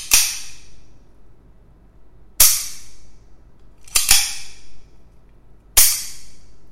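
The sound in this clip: Sharp snapping clicks from the top of a camera tripod adapter: five crisp, loud snaps spaced a second or two apart, two of them in quick succession, over a faint low background hum.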